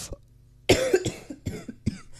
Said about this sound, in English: I do have a bit of a flu, so sometimes the coughing just comes and there's nothing I can do about it.